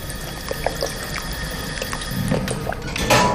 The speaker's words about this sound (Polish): Akurat musieliśmy do basenu węże wkładać. Pompujemy swoją pompą taką przenośną, pływającą.